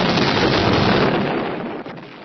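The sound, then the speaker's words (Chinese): A ship explodes in a World War II account, a loud, dense, rumbling roar that fills the whole span and slowly fades away. “船炸了！”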